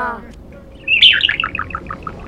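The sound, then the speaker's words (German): Budgerigar chirping on a ship: a quick run of bright, high, twittering chirps that starts loudest and then thins out into fainter, spaced notes, after a brief voice at the start. “Ist das da oben eine Möwe? Nee, das ist ein Wellensittich. Ein Wellensittich auf einem Schiff?”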